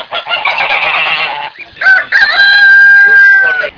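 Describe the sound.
Fighting geese cackling in the village of Elizarovo, a loud harsh chattering cackle followed by a long drawn-out, strained call.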